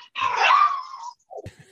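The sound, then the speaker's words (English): A dog making pained noises: one long, drawn-out groaning whine lasting about a second, then a brief pause and a shorter, lower grunting sound. “Who is that? That's a dog. He seems to find this especially painful, this part of it.”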